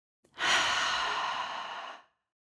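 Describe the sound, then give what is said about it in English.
A deep, slow breath taken during a guided breathing exercise: one sustained, airy rush of breath that swells quickly, holds steady for well over a second, then tapers off and stops, with no talking. “Two more times, deep breath in, fill up, up, up. Let it go.”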